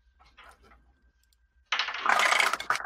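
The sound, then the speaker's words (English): Dice clatter out of a dice tower during a tabletop role-playing game, a sudden loud burst of rattling impacts after a quiet start, tumbling on for about a second. “Whoops, that rolled out of my dice tower.”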